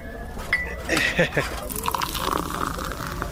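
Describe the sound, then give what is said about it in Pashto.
Tea being poured into a cup, a soft liquid gush with a few bright clinks of cups early on, followed by a steadier trickle. “وایم اصیل سړی ته صبر چې یوه پیاله چای درته واچوم چې ستړی شوی به.”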